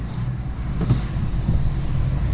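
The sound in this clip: Low, steady engine and road rumble from a car stuck in a Monday-morning traffic jam on the A3 motorway heading south, droning without a break and with a faint wind-like hiss.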